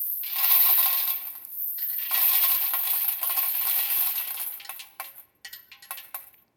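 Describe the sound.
A dense cascade of coins, $10,000 worth of money being dropped in, clatters continuously for several seconds with one brief dip. It then breaks into a few scattered, separate clinks before falling silent.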